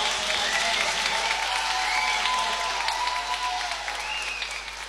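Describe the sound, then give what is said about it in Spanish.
Applause for a band after its live performance: a steady, dense wash of clapping that holds at an even level for the whole stretch and thins only slightly at the end. “Un aplauso.”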